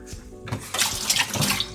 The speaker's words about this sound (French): Je me rince les mains.